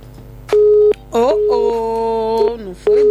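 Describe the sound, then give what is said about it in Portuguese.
A telephone line tone after a lost call on a radio call-in line sounds as a few interrupted bursts of one steady mid pitch, with a voice briefly overlapping the middle stretch. “Infelizmente perdemos aqui o contacto com o Fernando.”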